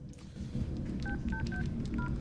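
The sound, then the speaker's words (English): Mobile phone keypad tones sound as a phone is dialled in a locker room: four short, clear electronic beeps at a steady pace over a constant dense background noise. “She looks around, then takes a mobile phone out of her pocket and dials.”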